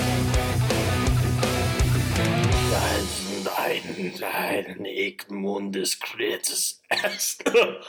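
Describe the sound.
Throat clearing: a few rough, raspy bursts come just after a stretch of music cuts off. The bursts are uneven and separated by short gaps.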